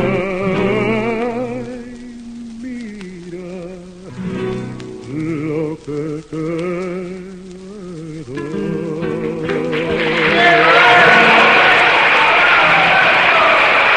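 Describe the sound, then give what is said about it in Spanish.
Wild applause from a radio studio audience at Radio Belgrano in the late 1950s, a loud wash of clapping that swells in after a sung melody ends and holds steady to the close. “aplausos enloquecidos. Enloquecidos, ¿no? Eran unos cuantos. Gritos, no sucedía tanto eso en la radio.”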